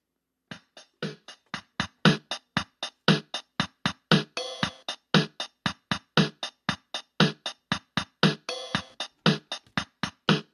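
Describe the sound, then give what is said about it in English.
Drum machine beat from a unit built into a guitar speaker: a steady, brisk pattern of many crisp, evenly spaced hits, mixing punchy low thumps with bright, hissy cymbal-like strikes, played alone without voices. “This also has a drum machine built in. There's a drum machine in here, which sounds like this.”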